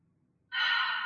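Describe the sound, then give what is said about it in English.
A single deep inhale taken during a guided breathing exercise: after a brief near-silence, a breathy rush starts suddenly and holds steady and fairly loud to the end. “let's take a deep breath”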